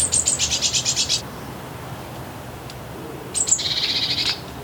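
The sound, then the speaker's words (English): A bird's alarm call in a garden: two bursts of rapid, high scolding chatter separated by a pause. Each burst is a quick run of harsh repeated notes over a low, steady background noise. “the alarm call is a series of scolding phrases.”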